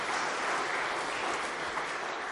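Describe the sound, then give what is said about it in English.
Audience applause at a church service, a steady dense wash of clapping that holds at an even level throughout, with no talk over it. “How about a round of applause for Don?”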